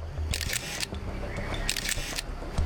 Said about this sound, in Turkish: Bu bir kamera tuzağı. Bu bir kamera tuzağı ve fotoğrafımı çekti. Evet, kamera tuzağı.